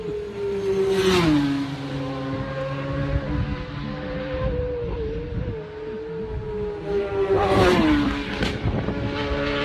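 Racing motorcycles downshifting: a loud, high engine whine drops sharply in pitch twice as the riders change down, with steady engine roar between the two shifts.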